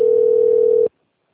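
A steady telephone dial tone plays while a call is being placed. The single continuous mid-pitched hum stays loud and even for just under a second, then cuts off abruptly into silence.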